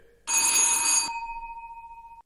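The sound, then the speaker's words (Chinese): A telephone bell rings in one loud, bright metallic burst of about a second, then a steady pure tone lingers and slowly fades on its own, with no voices. “对不起，我接个电话。”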